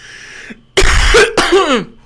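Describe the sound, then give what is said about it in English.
Someone with a dry throat lets out two harsh coughing bursts with throat clearing, loud and rasping, after a faint quiet lead-in. “I'm about to cough and puke. Mainly because my throat's all dry.”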